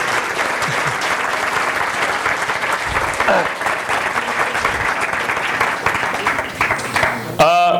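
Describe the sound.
An audience gives an ovation after a Gujarati stage play, with sustained, thick applause from many hands at a steady level throughout.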